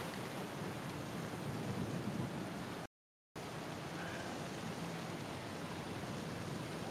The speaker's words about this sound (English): You might have to wait out the storm.